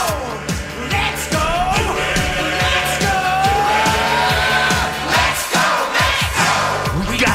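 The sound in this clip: A car engine revs hard in loud, whining bursts that climb and fall in pitch, over a dense, noisy background.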